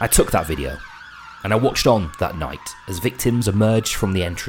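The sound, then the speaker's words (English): Wailing siren tone from a convoy of ambulances arriving at the scene of the Manchester Arena attack, a single steady note sliding slowly lower throughout, heard faintly beneath continuous talking. “That's the sound of a convoy of ambulances arriving at the scene of the Manchester Arena attack.”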